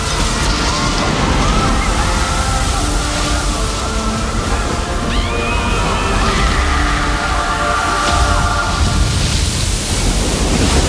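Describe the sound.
In a film scene, water bursts through a shattered glass dome into a first-class hall. It makes a loud, steady rushing roar with sloshing and churning that runs throughout without pause.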